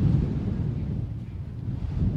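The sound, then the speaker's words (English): Wind gusts at a baseball game, a low, rumbling buffet that rolls on steadily and fairly loud for the whole moment. “The wind really starting to kick up, and some of that dirt got into umpire's eyes.”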